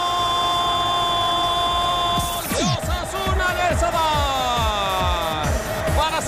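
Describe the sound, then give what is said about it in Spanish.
Shrill whistling from a football crowd jeering its own team at a Primera Federación match: sharp whistles, some falling in pitch, over a dense, loud roar of the crowd. “Estaban los pitos del público, su propio equipo. Por eso ni siquiera lo celebra.”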